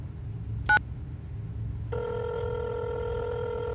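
Telephone ringing while a number is being called: a short tone blip, then a steady, buzzing multi-tone ring that holds unbroken to the end over a low background hum.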